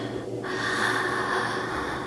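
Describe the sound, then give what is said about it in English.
A deep breath drawn in: a steady, airy hiss of inhaled air that holds for about two seconds at an even level, with no talking. “Take a deep breath”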